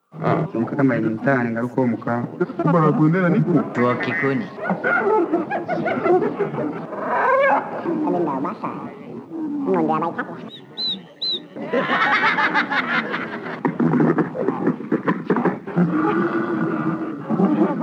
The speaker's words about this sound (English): Here are some alien voices / Walla.